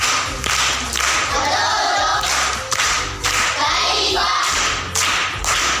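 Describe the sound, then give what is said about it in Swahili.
Loud clapping from a crowd of schoolchildren praising a primary school pupil's correct answer in a quiz, a dense, steady patter of hands with a few heavier thumps and some crowd noise mixed in. “Makofi kwa mjomba.”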